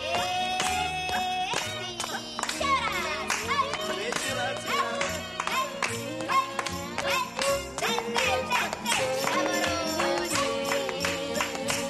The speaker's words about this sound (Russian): Цыгане встают вокруг танцующей Ларисы, играют и аплодируют ей.